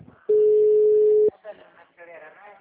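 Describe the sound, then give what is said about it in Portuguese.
A single steady telephone tone sounds for about a second while a call is placed. The line then cuts to voices talking. “Vou ligar pro Jair, velho.”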